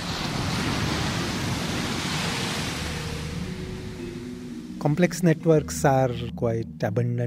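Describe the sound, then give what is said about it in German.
Large rogue ocean waves roar and churn with a steady, broad rushing surf. Partway through, a voice comes in over the water noise. “Dementsprechend lassen sich diese Monsterwellen, die wir hier im Wasser sehen, schon in anderen Bereichen wiederfinden.”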